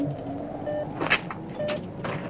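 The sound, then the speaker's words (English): A gate swings open as an audio drama sound effect, a brief metallic creak with faint squeaking tones and a single clunk around the middle, with no voices. “A red light flashes on the intercom. And the gate swings open.”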